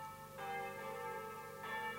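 Evening church bells ring out in two clear strokes, each leaving a long, humming tail of bright overtones that overlaps the next.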